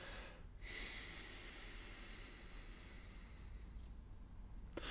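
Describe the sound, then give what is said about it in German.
A deep, full exhale through the nose: a faint, steady airy hiss that sets in after a brief pause and holds evenly for about four seconds. “man kann ja auch direkt mal das Selbstexperiment machen, was es mit einem anstellt, wenn man mal tief durch die Nase komplett ausatmet.”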